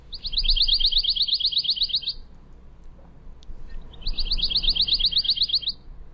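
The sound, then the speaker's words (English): Pine warbler song: two rapid, high, musical trills, each lasting about two seconds, separated by a short pause, with no talk. “here's the more musical pine warbler.”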